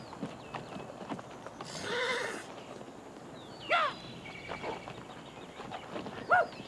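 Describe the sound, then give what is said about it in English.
Ponies led off by Ute riders clip-clop steadily on their hooves. One whinny rises clearly above the hoofbeats early on. “They ride off with the ponies.”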